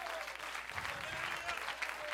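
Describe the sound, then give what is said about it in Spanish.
An audience applauds during a Christian worship service, a short, steady patter of clapping that stays even and fairly faint throughout. “Ese aplausito está chueco, está bendito en nombre de Dios.”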